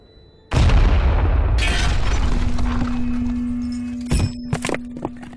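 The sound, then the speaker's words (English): Grenade explosion during an attack: one heavy boom bursts in and decays into a long rumbling roar with scattered debris, followed near the end by a few sharper cracks and pops. “They're attacking. This is it. They're not picking me off with grenades.”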